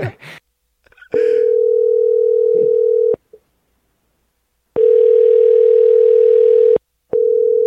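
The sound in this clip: Telephone ringing tone heard down a phone line: a steady, low electronic tone in long bursts of about two seconds separated by pauses, the last two coming closer together, with a few brief noises at the start.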